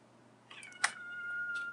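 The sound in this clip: A cat gives a brief, faint meow with no talk around it.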